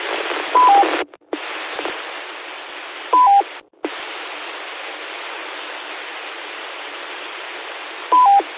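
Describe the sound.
Telephone keypad tones pressed by a caller on a phone line: the same short beep sounds three times, spaced several seconds apart, over a steady line hiss with brief dropouts.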